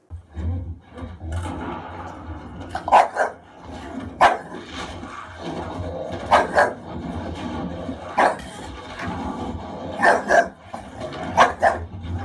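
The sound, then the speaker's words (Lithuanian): Stray dogs barking in many sharp, irregular bursts, some close together and some spaced out, over a steady low background rumble throughout. “kai tik buvo paskelbta, kad Rusijoje, Rusijos šunų reakcija buvo maždaug tokia”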